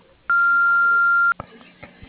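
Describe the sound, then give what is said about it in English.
An answering machine beep: a single steady, high tone lasting about a second, followed by a few faint clicks and low line noise. “To leave a voice message, please speak after the beep.”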